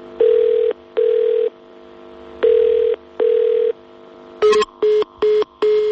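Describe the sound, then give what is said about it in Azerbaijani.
A telephone call to a district police office rings out with four long ringback tones in two evenly spaced pairs, then gives way to a click and a quicker series of short, steady busy-signal beeps. “çağırdı və sonra da telefon məşğul oldu”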